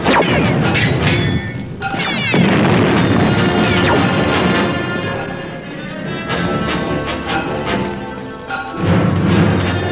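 A massive bomb explosion: loud, dense crashing and booming with repeated bursts and rumbling that stays heavy for the full ten seconds.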